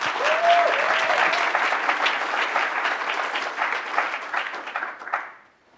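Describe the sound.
Warm applause from a conference audience at the IA Summit welcoming a speaker: loud, dense, continuous clapping that holds steady and then fades away in the final second.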